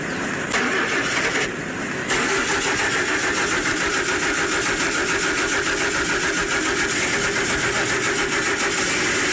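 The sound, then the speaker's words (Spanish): Car engine cranking steadily and failing to start, from a dead battery with a suspected faulty starter; a loud, continuous grinding that dips briefly near the start and then runs on unbroken. “Se le acabó la batería. Yo creo que el arranque es el que está molestando.”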